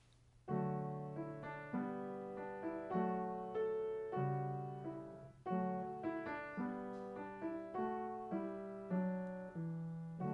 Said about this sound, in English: But Pleading Savior is the name of the tune. And it sounds like this.